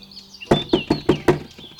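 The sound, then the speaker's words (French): Knocking on a wooden door: five firm, hollow raps in a quick, slightly uneven sequence, loud and clear against a quiet background. “Le loup féroce qui surveillait attendit que maman chèvre s'éloignât et alla frapper à la porte.”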